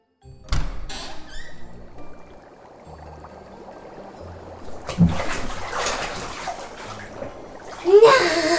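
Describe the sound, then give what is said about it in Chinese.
Water sloshes and splashes as someone climbs into a hot bath in a bathtub. A dull thump comes near the start, then gentle rippling, then a bigger surge of splashing at the end. “那全身泡进浴缸里，真的好舒服哦。”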